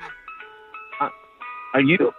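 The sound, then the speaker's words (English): An ice cream truck plays its jingle, a bright tinkling melody of separate chiming notes, while people talk over it. “Are you outside by an ice cream truck?”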